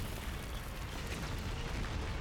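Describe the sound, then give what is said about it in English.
An explosion destroys a building in a town: a loud, sustained roar and deep rumble that stays steady the whole time, with no separate blasts standing out. “One building at a time. Kaboom!”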